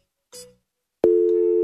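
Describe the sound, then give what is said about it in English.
Telephone tones from a phone call being placed: a brief tone blip, a short pause, then a steady, unbroken electronic tone that holds at an even level to the end. “That's some solid dialing music.”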